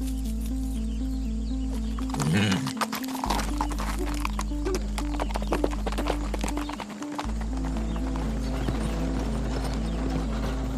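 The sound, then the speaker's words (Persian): Horse hooves clip-clopping steadily as a rider mounts and sets off, with a light mechanical rattle and a steady low hum running beneath the hoofbeats. “خدیجه پا روی پشت خاجه میذاره و سوار اسب میشه. خدیجه رو بندشو میندازه و میره.”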